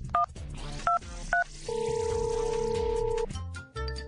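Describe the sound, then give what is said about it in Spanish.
Telephone keypad dialing tones: three short, sharp dual-tone beeps in quick succession, followed by a longer steady electronic tone and a final brief beep. “A ver, déjeme marcar.”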